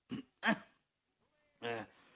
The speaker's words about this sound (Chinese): 何占鳌又面对整个宴会厅，先清了清嗓子。